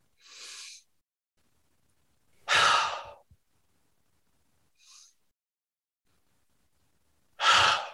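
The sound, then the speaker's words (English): Slow, deep breaths are drawn and released, with four separate airy breath sounds spaced apart by silence. The second and fourth are loud, full sighs, the first is softer and the third is faint and short. “And then I take 10 deep breaths.”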